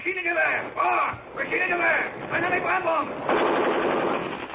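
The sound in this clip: A machine-gun burst in a radio drama battle scene of fog-bound foxhole fighting against advancing Nazi troops: shouting voices give way to a loud, rapid, sustained rattle of gunfire.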